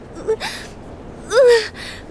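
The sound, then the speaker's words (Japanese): Deep breath drawn to calm down: a few airy inhale and exhale bursts with short, voiced, sighing tones, fairly loud. “とにかく落ち着いて、まずは深呼吸。”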